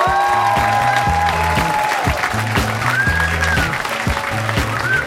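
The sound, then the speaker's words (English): Audience applause at a live stage show, loud and sustained clapping from a crowd that continues throughout, with a low rhythmic musical pattern running underneath. “Another round of applause for Chris Hardwick”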